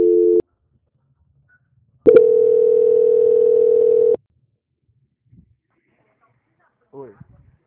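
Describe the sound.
Telephone line tones play while a bank call is transferred to quality control: a short steady beep, a pause, then a longer unwavering mid-pitched tone of about two seconds. Faint voices follow near the end.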